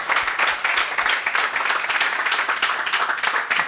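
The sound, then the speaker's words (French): Steady applause from an audience at a public talk on space science, an even, crackling wash of many hands clapping that lasts the whole time. “Quelques applaudissements pour Xavier, s'il vous plaît.”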